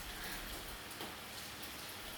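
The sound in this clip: Rain falling as a steady, soft, continuous hiss with no distinct drops or voices, fairly quiet throughout.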